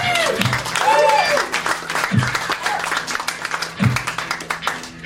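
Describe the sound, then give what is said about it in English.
A comedy club audience applauds and claps for a comedian, with steady clapping throughout and voices calling out over it. “Give yourselves a nice hand. Come on, guys. Come on. Yeah. Feel it. Guys, give it up to Brody Stevens.”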